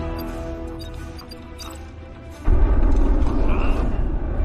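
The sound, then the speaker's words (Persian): A warning shot fired at a spacecraft during a pursuit: a sudden loud boom about halfway through, giving way to a sustained, heavy rumble. “بیا یه تیره هشدار شلیک کنیم.”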